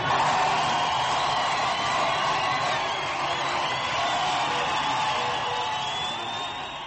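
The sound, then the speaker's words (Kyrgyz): Crowd of supporters of reformist candidate Mousavi lined along Tehran's main street, chanting and shouting together, a steady dense mass of loud voices that eases slightly toward the end. “Реформист Мусавинин колдоочулары Тегерандагы эң башкы жана узун көчөгө чыгып шаардык ак жарган кан жолдун башынан аягына чейин кыркаар тартып тизилип уран чакырып кыйкырып турушту.”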